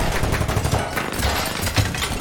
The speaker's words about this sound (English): They're mostly shooting the ceiling. Get down.